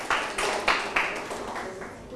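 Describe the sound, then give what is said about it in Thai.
Classmates clap for a student group in a classroom: a few sharp, separate claps near the start, then a thinner scatter of hand claps that fades toward the end, fairly faint overall. “ปรบมือให้กับกลุ่มที่3นะครับ”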